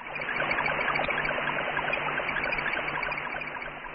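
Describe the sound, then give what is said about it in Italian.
A radio signal recorded from the Explorer 15 scientific satellite plays as a steady, dense hiss with faint, regularly pulsing low tones and scattered high blips, like a babbling stream. “Provate a chiudere gli occhi e ad ascoltare l'Explorer 15. Non avete anche voi la sensazione di essere in riva a un ruscello?”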